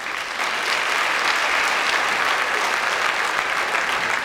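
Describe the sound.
Loud, sustained applause greets an award speaker walking on stage at an ecology award presentation. The clapping is dense and steady from start to finish, with no voices over it.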